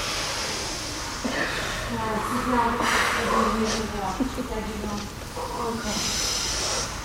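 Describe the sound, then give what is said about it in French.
Slow breathing in and out during a guided breathing exercise, soft airy hissing inhales and exhales that swell and fade, with a voice talking alongside. “J'inspire. Expire. Faites-le pour deux. On remet de l'air. J'inspire.”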